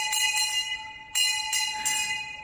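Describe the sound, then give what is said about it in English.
A school bell ringing, a steady bright tone repeated in several sharp strikes with short pauses between them, with no voices. “And if you were really good, you got to ring the bell.”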